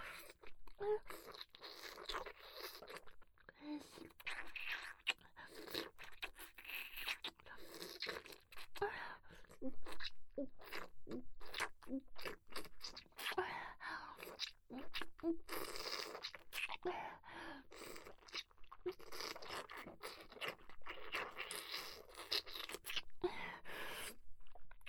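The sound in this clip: Wet slurping mouth sounds, with many irregular sucking and smacking noises in a continuous, uneven run, quiet and close, mixed with faint whispering.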